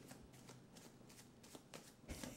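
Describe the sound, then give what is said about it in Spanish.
Playing cards are being shuffled repeatedly during a magic card trick. The riffling and rustling comes in a steady run of soft, papery bursts, faint and without talk. “Voy a revolver más. Quiero que veas, mira, como cartas boca arriba, boca abajo, boca arriba, boca abajo”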